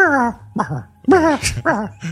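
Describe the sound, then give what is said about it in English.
A dog yelping and whining in a quick series of short, high cries whose pitch bends and falls, each cry separated by brief gaps. “That was that damn dog.”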